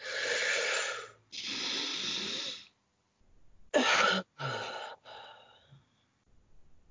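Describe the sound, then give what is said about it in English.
A deep breath is drawn in and then let out in long, loud, airy rushes. A few shorter, sharper breathy bursts follow after a brief pause. “All right, let's take a deep breath. 3, 2, 1.”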